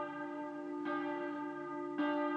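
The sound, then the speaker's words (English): A church bell tower rings at 7 a.m. on the outskirts of Munich, a sustained, humming metallic tone struck anew twice, steady and faint. “But the bell tower has just started going crazy at 7 a.m.”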